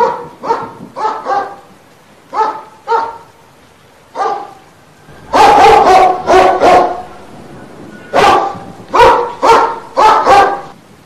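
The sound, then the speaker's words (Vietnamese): A large hunting dog guarding a doorway barks loudly and repeatedly in short, sharp bursts, with many barks in irregular groups separated by brief pauses. The barks grow louder and fuller partway through. “Chó săn nhìn thấy có người muốn chạy trốn rời khỏi nơi này, lớn tiếng sủa lên.”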